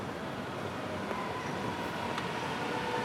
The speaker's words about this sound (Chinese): 又一辆五号线进站。